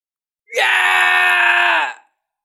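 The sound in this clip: A man screams loudly in pain during a battle, his arm numbed after his weapon is destroyed: one sustained, harsh cry lasting about a second and a half, alone against silence.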